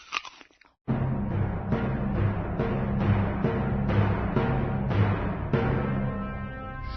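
Loud, wet crunching and chewing of an apple. After a brief pause at the start, many rhythmic bites and chews follow one another steadily to the end.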